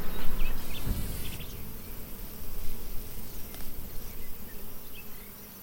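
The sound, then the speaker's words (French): Bees buzz in an open beehive, a dense, steady drone of many wings that holds at an even loudness throughout, with no voices. “Voilà, je vais la refermer cette ruche là.”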